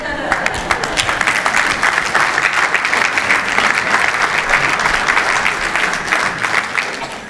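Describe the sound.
An audience applauds to welcome guests, with dense, steady clapping from many hands that holds at a loud, even level throughout and eases slightly at the end.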